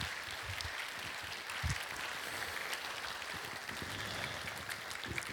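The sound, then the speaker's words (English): Applause from an audience giving a standing ovation to welcome a morning guest speaker, a dense, steady clatter of clapping that holds at an even level throughout. “Would you give a standing ovation”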